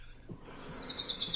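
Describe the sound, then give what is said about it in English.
A pre-recorded songbird song, dubbed over a golf course scene, enters partway through as a faint, high, rapid series of chirping notes over a low background hiss. “But turns out CBS was actually sweetening the broadcast with pre-recorded bird songs.”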